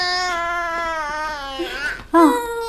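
A small child crying in a long, high, sustained wail that sags slightly in pitch, breaks into a shaky sob, and then bursts into a short, loud cry after a brief pause.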